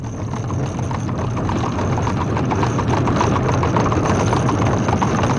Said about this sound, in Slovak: Slečna Moustenová práve prišla drožkou. A 6 hodín, slečna je teda tu. Poďme aj my, nech drožka zbytočne nečaká.